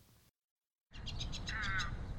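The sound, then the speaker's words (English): Egrets, herons and great horned owls calling at a waste transfer station among warehouses in South Fresno. After a brief silence, a series of repeated harsh calls rises over a steady, noisy background. “the calls of egrets, herons, and great horned owls may seem a little out of place”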